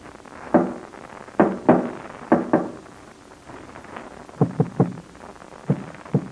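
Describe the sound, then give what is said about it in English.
Knocking on a wall taps out a dot-and-dash code from someone locked in a room and calling for help. Dull thuds arrive in irregular groups of single knocks and quick pairs and triples, separated by short pauses, with no other sound. “Well, that's a dot and dash code. It's coming from this wall over here. Somebody's calling for help.”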